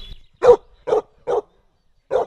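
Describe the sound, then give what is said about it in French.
A Bavarian mountain hound, a hunting tracking dog, barks during a hunting demonstration. It gives four sharp, loud barks: three in quick succession, then one more after a short pause. “Là, vous avez le chien qui est un rouge de Bavière qui va faire la démonstration.”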